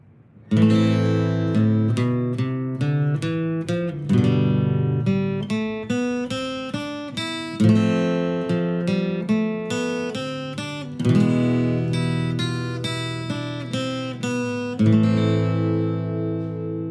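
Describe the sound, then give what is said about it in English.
Spanish-style fingerpicked guitar piece in the natural minor scale, played solo as a steady stream of plucked notes and ringing chords, with stronger accented phrases returning every few seconds. “So a really tasty sounding guitar part there, something really cool that you can sit and just whittle around with nice and easy.”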